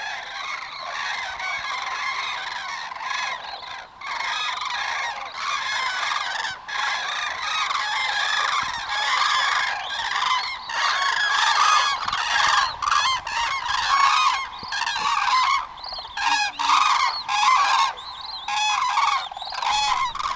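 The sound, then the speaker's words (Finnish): Common cranes calling as a large flock arrives at a lake on an early September evening, loud overlapping trumpeting calls in continuous, dense bursts with no talk. “Mutta nyt alkaa kuulua kovempaa ääntä. Kurjat saapuvat.”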